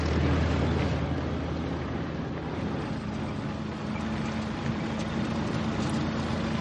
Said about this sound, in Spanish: Bror y Karen regresan a casa en el auto. Él conduce.